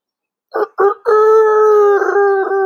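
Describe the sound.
A rooster crows loudly and alone: two short clipped notes, then a long, sustained, slightly wavering crow that holds its pitch to the end.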